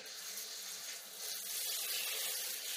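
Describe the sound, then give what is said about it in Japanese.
Lukewarm water from a shower sprays down to rinse hair in a steady, soft hiss that grows slightly fuller partway through. No one talks. “まずは軽くシャワーで流していきますね。ぬるめのお湯なので安心してください。”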